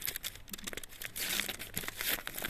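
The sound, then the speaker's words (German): Crinkling and tearing of paper and packaging as a parcel holding a letter from the Swiss embassy is unwrapped, a steady rustle broken by sharper ripping bursts throughout. “Also ich habe es noch nicht ausgepackt, ist noch zu. Aber ich vermute schon, was drin ist. Ich packe das mal mit euch aus.”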